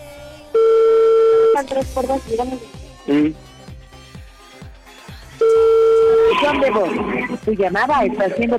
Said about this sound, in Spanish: le estoy marcando, ojalá conteste